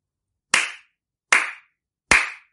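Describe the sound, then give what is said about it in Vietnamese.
Three sharp hand claps of applause, evenly spaced and alone. Each is a crisp, loud smack with a short decay, separated by silence. “Vang Nhân Ách vỗ tay liền ba cái, tán thưởng.”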